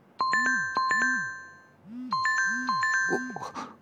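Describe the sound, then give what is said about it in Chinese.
A mobile phone ringtone rings again: a short repeating melodic phrase of bright electronic tones plays, pauses briefly, then starts over at a steady, fairly loud level. “铃声很快就消失了，可间隔不到两秒钟，再次响了起来。”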